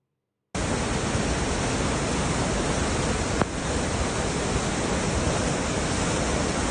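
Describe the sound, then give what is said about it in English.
Floodwater rushing through Jackson Falls, New Hampshire. A dense, continuous roar starts abruptly after a moment of silence and stays loud and even throughout, with no voices. “did y'all see uh, Jackson Falls, New Hampshire? They had some flooding going down up there. Look at this shit.”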